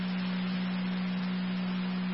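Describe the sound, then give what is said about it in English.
Fire dispatch alert tone: a faint, steady, low continuous tone holding one pitch without a break. “Additional tones for manpower requested to scene 3035 Duluth.”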